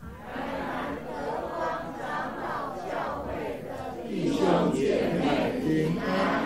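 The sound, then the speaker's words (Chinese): A Presbyterian church audience gathered for a service shouts a greeting together. Many voices call out in unison, and the crowd grows louder and fuller in the second half. “刚刚你听见的声音是我们在这里现场的弟兄姊妹。”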